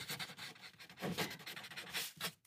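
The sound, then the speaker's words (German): Pen scratching across paper as someone writes with one hand while holding a microphone: soft, quick rubbing strokes in short bursts, faint and with no talk. “Moment, ich kann nur mit einer Hand. Moment. Kannst du mit einer Hand schreiben? Ja, aber ich halte ja das Mikrofon fest.”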